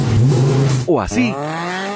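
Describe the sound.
Car engine revving through a sporty aftermarket exhaust, a throaty growl whose harmonics climb sharply in pitch and then hold high. A voice speaks briefly over the start.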